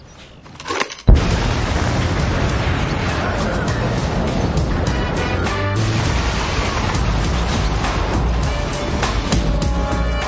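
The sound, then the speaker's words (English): A detonated explosive charge goes off about a second in with a sudden heavy blast. A loud, sustained roar of rumbling debris follows and continues to the end. “Fire in the hole! 3, 2, 1.”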